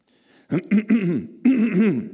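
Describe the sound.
A speaker with throat trouble clears their throat: a few short, rough voiced bursts followed by two longer guttural rasping rumbles, fairly loud and alone.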